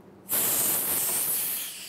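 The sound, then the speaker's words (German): Air rushes into a freeze-drying chamber holding strawberries after a 36-hour drying cycle. A loud, steady hiss starts abruptly and holds, easing slightly toward the end. “36 Stunden dauert die Gefriertrocknung. Dann erst kann wieder Luft eingelassen und die Dörrkammer geöffnet werden.”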